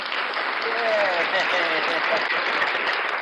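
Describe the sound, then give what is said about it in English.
Continuous clapping applause fills the whole stretch, dense and steady at an even level, with a few voices audible over the clapping. “That is another clap, bro. Another clap, bro.”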